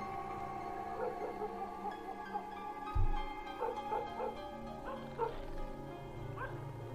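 A dog barks repeatedly outside, giving several short, sharp barks and higher yips spread unevenly over the stretch, with one louder thud-like bark near the middle and a faint steady hum underneath.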